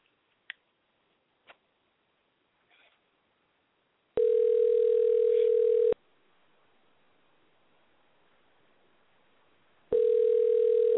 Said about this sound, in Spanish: Aquí nuestro amigo George Jiménez va a ser el que va a hacer contacto con él primeramente. En este momento lo estoy marcando.